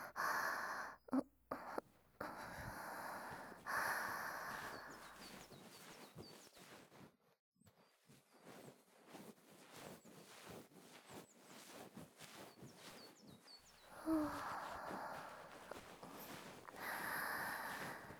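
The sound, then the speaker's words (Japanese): Soft brushing of a bonten, the fluffy tip of an ear-cleaning tool, sweeping over the ear during an ear-cleaning session. Many gentle rustling strokes come in uneven bursts, rising and easing in loudness. “さあ、こちら、あとは梵天で仕上げさせていただきますね。少しだけくすぐったいですよ。”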